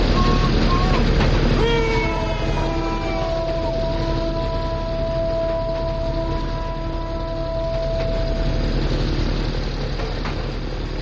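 Loud, steady rumble of a train running fast along its track, a veteran engine being driven hard. The roar is continuous throughout, and long sustained whistle-like tones ride over it through the middle seconds.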